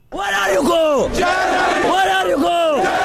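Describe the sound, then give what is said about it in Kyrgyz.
Migrants at Budapest Keleti railway station loudly chant 'Germany' over and over, a rhythmic massed shout with each call rising and falling in pitch, repeated steadily throughout. “Будапешттин чыгышындагы келети темир жол бекетине киргизбей койгондон кийин колдоруна билеттерин кармаган мигранттар анын жанында Германия, Германия деп кыйкырып турушту.”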